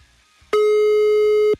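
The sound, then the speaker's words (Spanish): A phone call reaches voicemail with a single loud, steady electronic beep lasting about a second, heard alone against a quiet line. “Ah, caray. Buzón de voz.”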